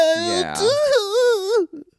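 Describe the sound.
A voice imitates sobbing, mimicking a reality-television personality crying in an Alaska accent: a wavering, wailing cry whose pitch wobbles up and down, held almost unbroken, then cut off by a couple of faint, short breathy catches.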